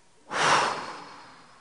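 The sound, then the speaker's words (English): A single deep breath in and out during a guided group meditation, one soft, noisy breath that swells quickly, peaks, then fades slowly over about a second, heard alone. “Now a big breath in and out.”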